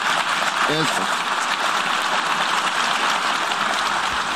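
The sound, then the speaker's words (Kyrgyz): Diplomats in the UN General Assembly hall applaud after a vote result is announced. Dense, steady clapping fills the whole stretch at an even loudness, with a brief voice heard near the start. “Добуш берүүнүн жыйынтыгы жарыяланганда залдагы дипломаттар бир топко чейин кол чаап турушту.”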